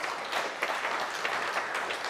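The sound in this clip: Clapping from an audience gives a soft, continuous wash of many hands at a fairly faint, even level, with no voices over it.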